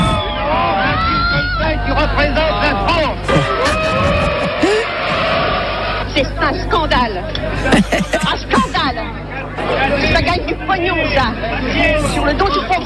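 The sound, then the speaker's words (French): Spectators react nervously after a 1973 screening of the film La Grande Bouffe. Dense crowd babble fills the whole stretch, with many overlapping voices, some loud and some murmuring, rising and falling unevenly. “Le film fait grand bruit. Réaction nerveuse des spectateurs.”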